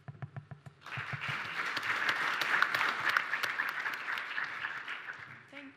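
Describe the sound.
An audience applauds to welcome a speaker at a talk on fossil fuel divestment and clean investment. Dense, even clapping starts after a short voice and holds steady for several seconds before fading.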